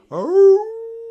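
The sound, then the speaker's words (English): A wolf howls once, rising in pitch and then holding a long, steady, loud tone that slowly fades, with nothing else heard around it. “You should never disagree with the wolf pack, said the wolf, smirking. Then he started to howl.”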